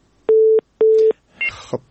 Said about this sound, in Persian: د ورور تماس قطع شد تماس برادر ما قطع شد